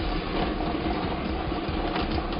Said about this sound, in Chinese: 我们现场 3D 游戏的摇奖机也是正式启动了，来等待一下即将产生的第一个 3D 游戏开奖号码